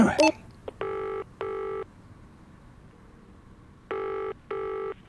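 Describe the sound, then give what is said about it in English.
A telephone rings at a school reception desk: a click, then two pairs of short, bright electronic ring bursts separated by a gap of quiet background hiss. “Sorry, could you get the phone?”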